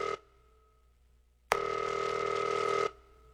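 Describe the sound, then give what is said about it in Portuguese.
Ringback tone of an outgoing telephone call: a steady electronic tone cuts off at the very start, then after a silence one ring sounds for about a second and a half before stopping. “Vamos ligar agora pra Maura, pra avisar que ela ganhou o presente, será? Acho que tá ouvindo, deixa eu ver. Pera aí. Tamo ligando pra ela.”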